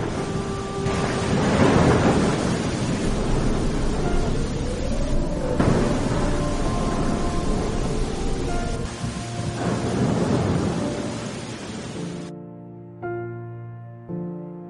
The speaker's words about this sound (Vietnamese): tiếng mưa than khóc và từng trận sấm rền đã làm đắm chìm tất cả, chẳng còn lại gì.